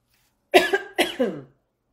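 Coughing from a tickle in the throat: two short, fairly loud coughing bursts, each breaking into a couple of rough pulses, heard alone with silence around them.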